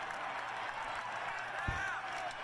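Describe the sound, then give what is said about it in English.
Crowd noise at a sports event where an eagle landed on a fan. Cheering and clapping form a steady, fairly faint wash throughout, with a brief thump partway through. “I want you to notice something. They're all cheering, but he's not.”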